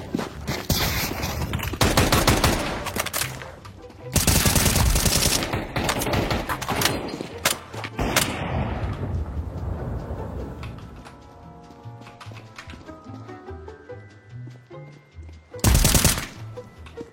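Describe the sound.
Rapid automatic gunfire in a video game comes in long, loud bursts. Quieter scraping and movement sounds fill the gaps, and one last short burst comes near the end.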